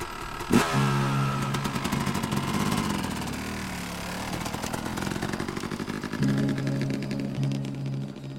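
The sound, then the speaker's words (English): A motorcycle engine catches with a sharp start and revs in a loud harmonic drone. The drone dips lower through the middle, then climbs again, with no voices. “We climbed onto the bike, started it.”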